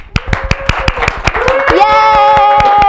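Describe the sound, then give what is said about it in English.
Hands clap in a quick, steady rhythm as a guest is welcomed before an audience, many sharp even claps in a row, joined midway by a sustained musical tone that swells and holds under them. “Ladies and gentlemen, big hand.”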